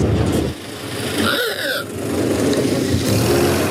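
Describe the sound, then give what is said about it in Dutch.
A Ford Model T car engine running with a steady, noisy mechanical rumble, briefly dipping in loudness before settling back to a constant drone. “Het begint uiteraard bij Henry Ford en zijn legendarische Ford T. Die klinkt zo.”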